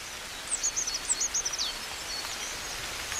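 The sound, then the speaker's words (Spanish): A coal tit sings in winter: a quick run of high, thin notes lasting about a second, set against a steady soft hiss that carries on after the song stops. “En pleno invierno, con el frío, un carbonero garrapinos está cantando como anticipándose a la primavera.”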